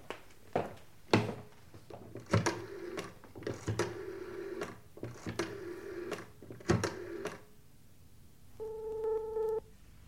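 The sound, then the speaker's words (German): A telephone call being dialed: a run of irregular clicks and clattering knocks, then one steady, even tone that lasts about a second near the end. “Wollten Sie nicht um 5 Uhr bei Meadows anrufen? Es ist gleich 5.”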